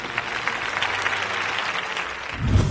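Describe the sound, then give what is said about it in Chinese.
An audience at a Spring Festival gala breaks into applause, a dense, steady patter of clapping that holds for nearly three seconds and swells slightly at the end, with no voices over it. “来，我们再一次把掌声送给他们。”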